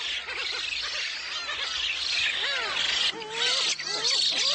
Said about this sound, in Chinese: 新生雏鸟们吵得不可开交